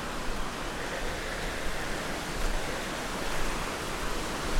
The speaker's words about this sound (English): once they get eroded, they seem to sort of become streams themselves, so I'm getting quite close to the stream.